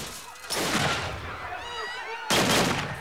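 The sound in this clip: Gunfire rings out as police officers exchange shots with a gunman in a public street shootout. Two loud, broad blasts arrive, one early and one near the end, with a quieter ringing tail in between.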